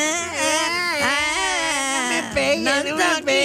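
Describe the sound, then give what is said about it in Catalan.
A voice performs exaggerated, affected crying as a spoiled rich newborn's wail: loud, continuous sobbing with wavering, strained pitch that swoops up and down through each breathless cry. “Aquest plor no el fem servir gaire sovint. No. Perquè ja és de pija. És plor de pija.”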